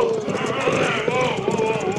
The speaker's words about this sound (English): Well, look who's riding this way. Who? The sheriff and some of his men. He hold up his hand for us to stop.